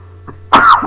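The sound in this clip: A single sneeze: a faint brief intake of breath followed by one sharp, breathy burst that quickly trails off.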